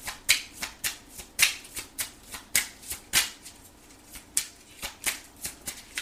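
Tarot cards being shuffled for a reading, with many quick, crisp riffling bursts that fall in an uneven, brisk rhythm. The papery snaps are fairly loud and stand alone, with no talking.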